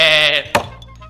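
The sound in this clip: A lamb that a farmer is about to sacrifice gives one wavering, nasal bleat lasting under half a second, followed by a single sharp thump.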